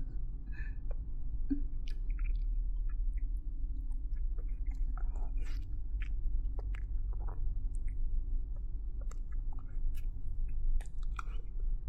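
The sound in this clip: Chewing of a fried chicken cutlet: soft, squishy bites and faint crunchy clicks repeating irregularly over a low steady hum, quiet throughout.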